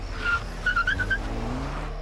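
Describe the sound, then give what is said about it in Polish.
A car pulling away at night, a faint, steady low engine rumble with a few thin high squeaks over it, with no voices. “O 2:12 pojazd odjechał.”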